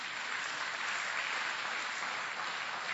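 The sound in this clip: Applause from a church audience clapping in praise to the Lord during a service, a brief, dense, continuous patter of many hands at an even level throughout.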